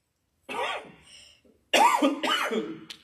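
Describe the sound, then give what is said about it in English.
Harsh, throaty coughing from a speaker during a talk on prayer: a few strong bursts separated by a brief pause, with no words spoken. “Sorry, I'm coughing tonight.”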